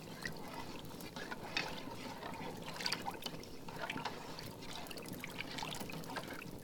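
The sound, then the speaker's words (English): A cup of herbal tea with chamomile and a few drops of honey is stirred, giving a continuous, faint liquid swishing and trickling that stays at an even level throughout. “a sprinkle of chamomile, and a few drops of honey. Alright, I'll give that a good stir.”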